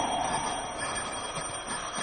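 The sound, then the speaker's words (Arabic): An electric doorbell rings continuously at an apartment door, a steady, shrill, metallic ringing that holds at an even, moderate level throughout. “اضرب الجرس. والعامل هنفضل ملطوعين كده لما اخذه قدام الباب؟ ما تصبر، انت وراك ايه؟ اضرب الجرس.”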